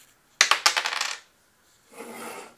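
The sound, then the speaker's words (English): A single die rolled to pick between two ciders: bright, quick clattering bounces, then a short silence and a softer rattle as it settles. “So, after that riveting dice roll,”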